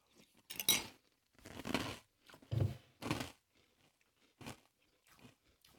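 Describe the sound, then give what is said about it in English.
Crunchy chewing of Captain cereal with milk eaten from a big spoon: a quiet, irregular string of crisp crunching bites separated by short pauses, with no talking. “I grabbed myself the big spoon. Mm-hmm. You know, because the big spoon is. Good. Oh, ah, I got the right ratio of milk and captain.”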